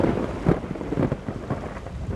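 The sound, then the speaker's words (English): A summer thunderstorm: steady rain hiss under low rumbling thunder, fairly faint, with a few soft swells of rumble throughout. “Outside, nature is putting on her own pyrotechnic display with a classic summer thunderstorm.”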